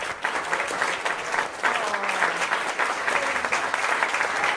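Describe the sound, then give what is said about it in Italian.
Applause at a live presentation of a debut album: a dense, even wash of many hands clapping, holding a steady loudness for the whole four and a half seconds with no break or clear fade. “Si sentono gli applausi? Sì, si sente.”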